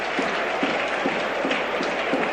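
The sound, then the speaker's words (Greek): A football stadium crowd applauds an injured player getting back up, a steady wash of clapping from many hands with occasional sharper claps, with no single voice standing out. “Ακούτε το χειροκρότημα, φαντάζομαι, γιατί τώρα σηκώθηκε έστω και κουτσένοντας”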